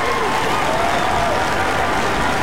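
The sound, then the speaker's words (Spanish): Applause from a crowd, a dense steady clapping that stays loud and even from start to finish. “Este aplauso es para ti, disfrútalo por ser el primer lugar.”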